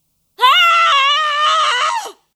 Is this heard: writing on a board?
no